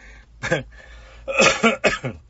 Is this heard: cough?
yes